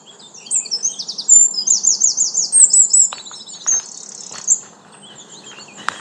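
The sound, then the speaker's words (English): Park ambience under oak trees in late April, full of birdsong. Many quick chirps and trills sound over a soft, steady background hum, busiest in the first half and thinning out later, with no voices. “Here's some sounds from my park.”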